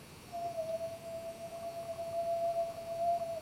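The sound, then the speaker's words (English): A person whistles a single steady, pure tone that holds at an even pitch for about three seconds, clear and alone with no talking. “So let me whistle again.”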